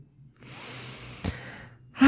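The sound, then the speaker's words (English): A person draws a slow, deep breath, a soft airy hiss lasting over a second with a brief catch near its end, followed by the onset of a voice. “And I'm taking a deep breath here as I'm saying this to assimilate those words.”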